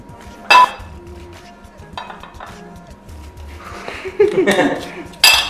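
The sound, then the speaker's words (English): Cutlery and dishes clink as a spoon is grabbed in a kitchen: a few sharp metallic clinks and rattles spread across the moment, with the loudest knocks at the start and the end. “Let's grab a spoon.”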